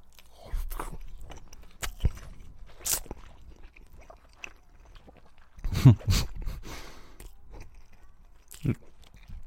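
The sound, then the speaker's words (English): Close-up ASMR chewing of scrambled egg, with soft wet mouth smacks and sharper crunchy clicks at irregular intervals. The noises are fairly faint overall, with a louder cluster near the middle. “can you give us some ASMR? Hold on, I've got... So this is scrambled egg, for anyone wondering.”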